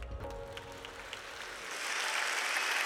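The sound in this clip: Church audience at Wooddale Church applauding to welcome a pastor back: clapping starts softly, then swells into fuller, denser applause over the last second or so.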